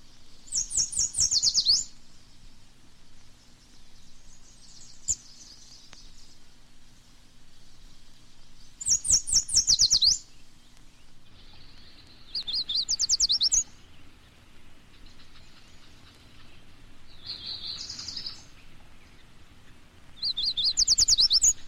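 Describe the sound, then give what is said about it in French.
Yellow warbler song: about five short, high, bright bursts of rapid sweet notes, each separated by a few seconds of quiet background hiss. “la fauvette jaune,”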